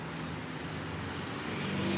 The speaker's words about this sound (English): And as you can hear, I'm now back in traffic.